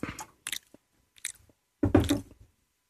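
Someone chews food while tasting it, making several irregular wet, squishy bursts of mouth noise separated by silences, with the longest and loudest burst near the end. No one speaks.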